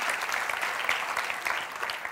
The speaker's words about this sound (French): Est-ce qu'on peut applaudir et remercier Dieu qui se manifeste au travers de nous pour sa gloire?